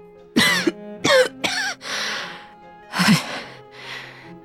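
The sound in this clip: Coughing from a weary elderly woman propped up on pillows in a sickbed, heard as a few short, throaty coughs with a low rasp, followed by breathy exhalations.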